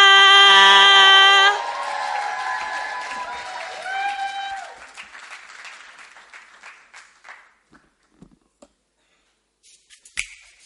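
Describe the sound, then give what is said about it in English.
An audience applauds and cheers to welcome a singer. The clapping swells briefly, then thins out and fades to near silence, leaving only a few stray claps at the end. “please put your hands together and let's welcome Sela”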